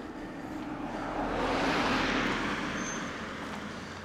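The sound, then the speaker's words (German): Cars passing on a road make a steady broad rushing roar that swells through the middle and eases off toward the end, with no voices over it. “Mit 3.500 Autos. Sag mal, wo kommen die denn jetzt wieder her? Ist die Kirche zu Ende oder was?”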